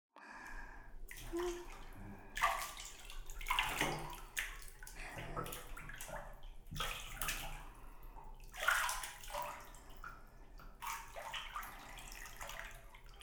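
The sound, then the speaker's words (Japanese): Hot water poured from a wooden bucket to wet hair: several uneven splashing pours with pauses between them, bright rushing water sounds that rise and fall, fairly soft overall. “さあ、それでは桶の中にお湯を入れておりますので髪の毛を濡らしていきますわね。”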